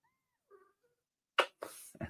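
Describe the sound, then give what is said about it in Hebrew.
A pet cat being taken out makes a brief, faint tonal cry, then three harsh, noisy bursts like a hiss or sneeze after a pause. “שנייה, אני מוציא חתול.”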